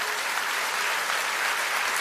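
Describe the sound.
A church audience applauds during a sermon: dense, steady clapping from many hands fills the whole clip at an even, loud level with no pauses.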